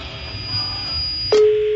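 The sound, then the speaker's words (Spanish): A telephone call on a radio phone-in connects: a faint hiss and thin high whine give way after a click to a steady, low, loud ringing tone that continues to the end. “está sonando el teléfono de la señora que tiene los perros en la azotea, Perla Yasmín”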